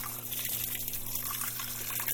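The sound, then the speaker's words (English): Water runs steadily into a top-loading washing machine set for an extra-large load, a faint continuous trickling and gushing over a low steady hum. “So unfortunately, we're going to have a lot of water in this load because I've inadvertently set it to extra large.”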